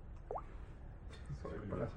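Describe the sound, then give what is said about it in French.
A single drop of wine falling with a tiny plop, a brief upward-sweeping blip, quiet overall, followed by faint voices talking. “C'est la goutte qui tombe. C'est la goutte qui tombe.”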